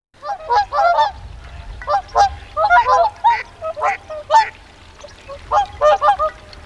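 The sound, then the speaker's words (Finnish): Swan squawking and honking, with many short, nasal, trumpet-like calls coming in quick irregular bursts and brief pauses, carried over a low rumbling background. “Jos Englannin torven soolo saa teidät kuvittelemaan joutsenen laulua, ette ole koskaan kuullut sen rääkäisyä tai puheliasta ääntä, joka kuulostaa tältä.”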